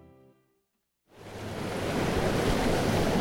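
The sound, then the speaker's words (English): Sea waves wash against the shore of the Strait of Georgia. After a faint hum and a moment of silence, a broad, steady roar of surf swells in and holds loud to the end. “This is the sound of where I live. I live on the shores of the Strait of Georgia.”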